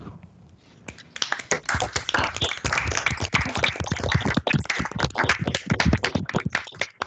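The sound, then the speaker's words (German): Online session participants clapping through open microphones, with many sharp, uneven hand claps that start after a quiet second and continue as a loose, irregular patter rather than a unified round. “Also wenn ihr zufrieden wart mit dem heutigen Tag, dann macht auch kurz mal die Mikrofone auf und gebt euch selber einen Applaus.”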